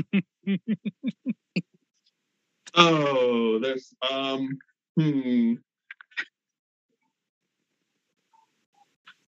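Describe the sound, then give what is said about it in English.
Touch-tone telephone keypad beeps as a number is dialed, a quick run of short, evenly spaced tones, followed by a voice speaking. “I am going to make a phone call.”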